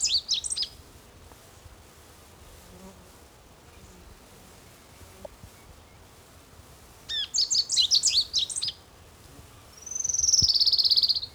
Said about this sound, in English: Also, I believe it likes sparrow singing.